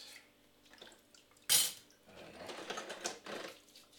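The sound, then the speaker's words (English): Dishes and cutlery being washed slowly: soft, scattered clinks, then one sharp, loud clatter midway, followed by a steady stretch of scraping and rushing, splashy noise with small knocks. “I always wash my dishes really slowly.”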